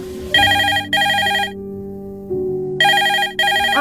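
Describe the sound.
Telephone ringing with an incoming call: two loud, bright double rings separated by a clear pause, each ring a pair of short tonal bursts. A low steady tone sits underneath.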